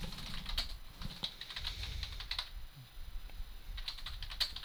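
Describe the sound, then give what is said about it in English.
Typing on a computer keyboard: many quick, light key clicks tapped in an uneven rhythm with brief pauses, fairly faint and heard alone without talking. “Takes longer to type it than it does to say it.”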